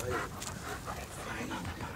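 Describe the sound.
A hunting dog panting after retrieving game on a hunt: fast, rough, steady breaths that run without a break, fairly soft throughout.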